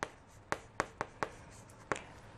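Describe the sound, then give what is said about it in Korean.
Hand drawing of a diagram of nerve neurons during a biology lesson. Six sharp, clicking strokes fall at uneven intervals, with a longer pause before the last one, quiet and with no speech. “자, 그래서 그림으로 한번 그려볼게요.”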